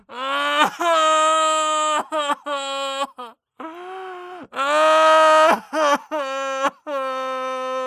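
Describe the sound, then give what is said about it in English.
A voice imitates sobbing and wailing: a string of long, loud, wavering high moans broken by short gasps and catches of breath, with one lower, softer cry in the middle. “good choice, because it's very much sobbing and wailing”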